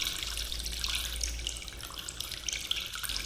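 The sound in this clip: Water seeps and drains out of pots of curing olives, a faint, steady trickle with a low, even hiss and no distinct drops.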